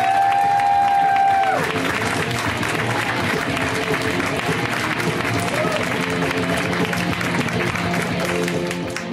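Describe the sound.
A comedy show audience applauds a comedian taking the stage with a loud, steady wave of clapping and cheering that opens with a sharp whistle and slowly fades toward the end.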